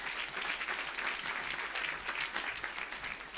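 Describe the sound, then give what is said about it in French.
A church audience applauds the Lord with faint, steady clapping that continues evenly throughout with no voices. “Tu acclames le Seigneur pour ça.”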